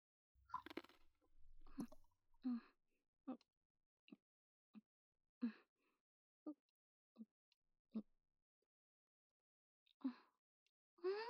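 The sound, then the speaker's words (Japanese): Quiet crunching of a homemade crunchy snack with nuts, heard as many crisp, separate bites and chews spaced irregularly between stretches of near silence. “カリカリしてて、食べてるだけで楽しくなっちゃうね。”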